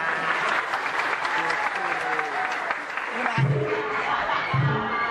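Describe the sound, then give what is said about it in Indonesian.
Steady applause from an audience during a comic talk about wedding customs, a dense, continuous patter of clapping lasting the whole clip, with voices audible beneath it. “Artinya tepuk tangan dong.”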